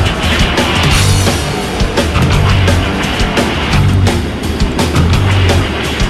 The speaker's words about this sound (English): Military trucks carrying personnel follow in its dusty wake.